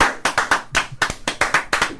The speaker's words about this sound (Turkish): Ayakta alkışlanıyor.